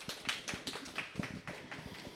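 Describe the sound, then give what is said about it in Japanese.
Audience applause greets the representative of a community recorder club as she is introduced: quiet, even claps at a brisk, regular pace, with no voices over them. “拍手をお送りください。”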